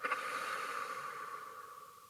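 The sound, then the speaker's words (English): A slow, deep breath drawn in and let out, as in a guided relaxation exercise; the airy rush is faint and steady, strongest at the start and thinning gradually over about two seconds, with no talk. “take a deep breath in through their nose. Exhale out through your mouth.”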